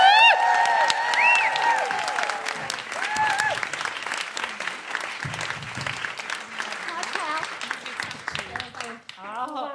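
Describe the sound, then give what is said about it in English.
Comedy show audience applause and cheering greet a guest comedian, with steady dense clapping and a few whoops near the start. “Please put your hands together and make general woohooing noises for Pippa Evans.”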